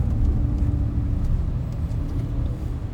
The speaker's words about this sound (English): It just pulls. And we're getting braking here. I'm using the pedal and I'm getting regen braking.